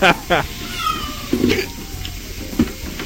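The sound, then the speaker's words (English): Pet cat meowing in a few short, harmonic meows spaced irregularly over a low, steady background. “That's my kitty cat. She's very confused.”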